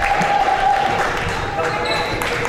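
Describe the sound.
Basketball dribbled up the court during a school game: repeated thudding bounces under a commentator's running voice, with faint crowd noise.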